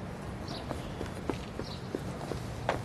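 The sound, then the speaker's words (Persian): Footsteps going down stairs in a park, a faint, evenly spaced series of light taps. “فرهاد تو پارک منتظر گلیه. با دیدن گلی از پله ها میره پایین.”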